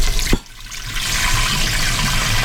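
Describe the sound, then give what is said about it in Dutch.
Water is poured into cooking pans during home cooking. A brief knock comes first, then a steady, even rushing hiss of pouring runs to the end. “Zal ik een beetje water in alle pannetjes toevoegen?”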